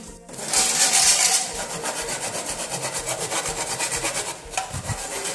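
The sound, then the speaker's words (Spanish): Hand sawing and carving of wood by a man at a carpenter's house: loud, steady back-and-forth rasping strokes repeating in an even rhythm throughout, with no voices. “fue a un lugar donde se oía a un hombre cortar y tallar madera”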